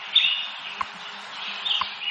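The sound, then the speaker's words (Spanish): Birds chirp at dawn in Madrid, a few faint, high, thin chirps and tweets scattered over a quiet background. “comenzamos hoy en nuestro programa con los pajaritos de Radio Hora, ya que nos indican que amanece oficialmente en Madrid en estos momentos.”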